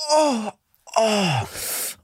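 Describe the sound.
A voice imitates a dying last-breath groan: two drawn-out moaning wails with falling pitch, split by a short pause. The second trails off into a breathy, hissing exhale.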